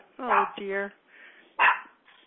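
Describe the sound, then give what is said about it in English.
A puppy barks in short, high, tonal yips: two quick yips, a faint whine, then another sharp bark, with no one speaking. “Somebody's on my porch. I think the mailman, the puppy's barking.”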